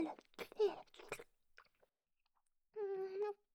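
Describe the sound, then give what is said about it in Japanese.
Quiet chewing of food produces a few soft, crunchy mouth noises in quick succession. A short silence follows, then a brief hummed vocal sound. “噛んでも甘くならないよ。”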